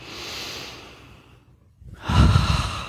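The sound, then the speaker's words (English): A deep breath drawn into the belly: a soft, airy inhale, a brief quiet pause, then a louder, fuller rush of breath released alone. “One more breath, deep into the belly.”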